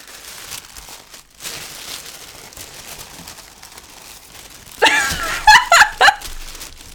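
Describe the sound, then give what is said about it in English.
A piece of tape is peeled open on a gift wrapped in tissue paper. After a stretch of near quiet, a few short, crackly rips and crinkles come in quick succession near the end. “I'm opening a piece of tape here.”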